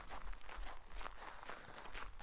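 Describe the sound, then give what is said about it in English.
Soft footsteps as two people walk back to the inn. The steps are quiet and come in an even rhythm, about twice a second, with no talk over them. “Come, I'll walk you back to the inn.”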